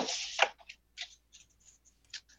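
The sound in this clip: Tarot cards being shuffled: a soft burst of rustling cards at the start, followed by a few faint, light ticks and slides of cards against each other, quiet and sparse, with no voices.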